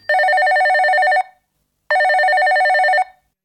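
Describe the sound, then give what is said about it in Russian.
A telephone rings for an evening call to the editorial office of a literary magazine, with two long, loud, bright electronic ring bursts separated by a short silence. “сейчас традиционный вечерний звонок в редакцию старейшего литературного журнала Петербурга «Звезду»”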